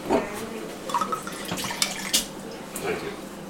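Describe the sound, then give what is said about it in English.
Tap water running to rinse out a wine glass, a steady splashing stream with small irregular spikes as the water hits the glass, fairly quiet throughout. “I'm going to rinse this out. I'll just do a quick rinse.”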